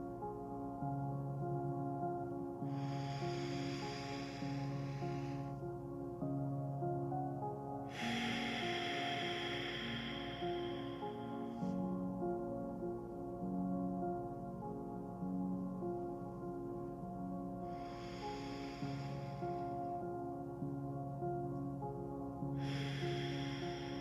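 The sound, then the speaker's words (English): Slow, deep breaths taken during a guided relaxation, several long airy inhales and exhales spaced apart over soft sustained music. “And we'll take 3 deep breaths together as we begin to relax our body and mind.”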